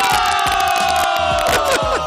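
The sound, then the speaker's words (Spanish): A live audience cheers and whoops after a comedic song about an election result. The crowd noise is loud and continuous, with overlapping shouts and no pauses. “¿Qué pasa con esos aplausos?”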